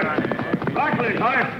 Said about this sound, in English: Horse heading this way. Hard to make out, staring right into the sun.